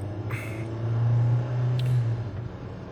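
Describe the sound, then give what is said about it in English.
Steady low rumble of a car being driven, a faint continuous drone with a gentle swell in the middle and no talking. “Well, I'm currently driving now from spot that I usually get food at, right?”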